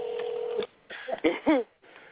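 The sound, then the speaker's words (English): A telephone call is dialled: a steady, mid-pitched dial tone holds for over half a second, then breaks into a few short, irregular keypad beeps and clicks, ending on a fainter hum. “Hold on. Let me see if my sister answer her phone.”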